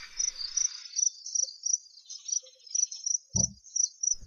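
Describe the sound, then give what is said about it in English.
A chorus of insects makes high-pitched, rhythmic chirping trills that pulse steadily throughout. A brief low thump is heard near the end. “What you can hear is a collection of insects.”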